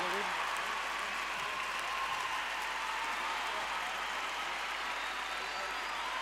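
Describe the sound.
Audience applause for a singer, a faint, even wash of many hands clapping that runs steadily throughout without peaks.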